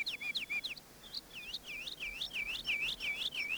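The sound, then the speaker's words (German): Many birds chirping in the cool evening over a village with fields and the sea, their quick high tweets repeating in a dense, overlapping chatter that starts sparse and grows busier and steady. “Was ist denn nur mit diesen Vögeln los? So viele.”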